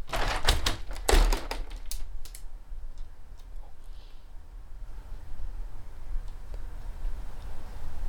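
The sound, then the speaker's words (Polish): A window is opened: a short cluster of sharp clicks and knocks from the handle and frame at the start, then steady, low background noise for the rest. “Ale żeby jeszcze mocniej to przetestować, to sprawdzimy sobie znowu z oknem. Otwieram.”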